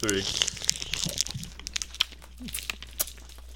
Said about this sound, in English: We're eating tomato candies right now. It tastes like tomato. Like sugar tomatoes.